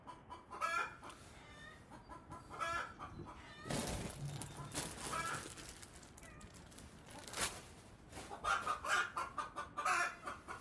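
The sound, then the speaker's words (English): Chickens clucking in short, repeated bursts of clucks, fairly faint, broken by a few louder rustling noises. “Is that chicken pissing you off, or are you guys fine? Chickens cluck after they lay eggs.”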